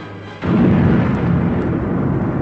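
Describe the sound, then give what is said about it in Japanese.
A huge space station explosion in a science-fiction drama: a sudden, heavy burst that swells into a loud, sustained, deep rumbling roar without fading before the end. “ついに、恐るべきデススターは、太陽の100倍以上の強力な光を発しながら大爆発を起こしたのである。”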